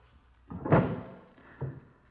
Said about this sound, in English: Let's have a look in the desk drawers. Right. Empty. This one's empty, too.